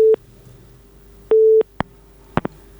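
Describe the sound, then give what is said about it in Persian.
A telephone busy signal sounds after a call disconnects. Two steady, mid-pitched tone bursts are separated by a pause, followed by a few sharp line clicks. “تماس شون فکر میکنم قطع شد.”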